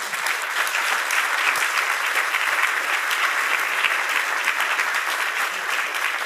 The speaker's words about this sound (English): that was a good warm-up for the final applause, which will come in just about 30 seconds.